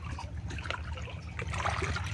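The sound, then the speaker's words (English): Soft water trickles and burbles in a steady, even flow over a low rumble, with no voices. “Allowing the sounds of the water to bathe our heart,”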